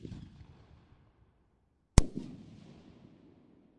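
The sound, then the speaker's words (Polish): A three-effect firework shell goes off with one sharp, loud bang, followed by a decaying crackle. The fading tail of an earlier burst can be heard faintly at the start. “Kolejna trzycelowa bomba PT58.”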